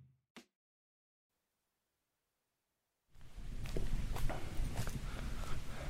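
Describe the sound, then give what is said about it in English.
Crunching footsteps walk toward a wall of green sugarcane in a field in the Dominican Republic. A brief click and a silent gap come first, then a steady, dense rustle and crunch of steps runs to the end. “I'm walking now towards what looks like a wall of green sugarcane. We've arrived in the Dominican Republic. Expect a bit of crunching as I move through.”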